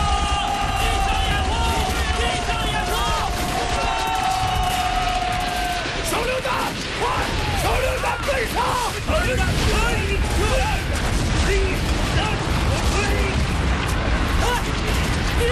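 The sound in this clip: Machine gun fire covers an infantry charge: dense, continuous bursts and booms with loud shouting from many men throughout.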